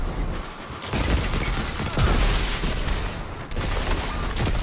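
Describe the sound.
Video game gunfire, including a golden gun, comes as a dense, steady wash of rapid shots and bursts at fairly low level, with no single report standing out.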